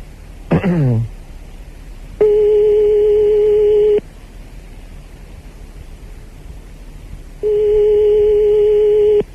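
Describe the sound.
Ringback tone on a telephone line during a call: two long, steady buzzing tones of about two seconds each, separated by a pause, preceded by a brief falling squeal.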